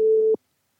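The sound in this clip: A single short telephone busy-tone beep after dialing, a steady electronic tone lasting about a third of a second before cutting to silence.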